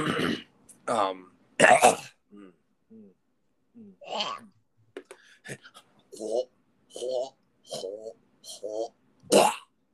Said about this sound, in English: Oh, look, I coughed up an episode of Store Brand Comics.